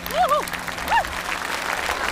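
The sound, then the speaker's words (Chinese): Audience applause welcoming a singer onto the stage at a televised music performance. Steady clapping runs throughout, with a few rising and falling whooping cheers from the crowd riding on top. “接下来让我们掌声有请王凯奇登台。”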